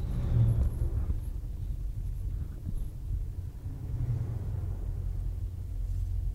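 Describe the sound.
A car drives along with a steady, low road rumble and engine drone that continues evenly throughout, with no talk over it.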